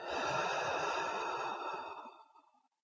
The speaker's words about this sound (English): Do that again. Breathe in and out.